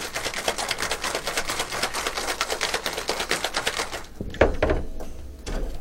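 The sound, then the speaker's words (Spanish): A cocktail shaker packed with ice is shaken hard in a fast, even rattling rhythm for about four seconds, followed by a few heavier knocks as the shaking stops. “Sí, sí, hay que batir bien hasta que se congele la coctelera totalmente.”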